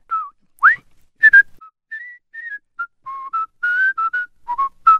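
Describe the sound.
Someone whistles a television theme tune solo, a clear melody of many short, bright notes in a bouncing rhythm, with small gaps between phrases and no voices.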